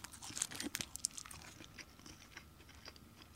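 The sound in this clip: Crisp nori seaweed crunches as someone eats it at breakfast. Many quick, brittle bites and chewing crackles come in an uneven run, faint and without any talk.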